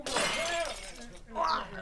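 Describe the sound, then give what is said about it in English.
Car window glass is kicked out and shatters on a car with a stuck door, left hanging at a cliff edge. A voice speaks first, then comes one bright, brief crash of breaking glass. “Get out of the way and I'll kick the glass out.”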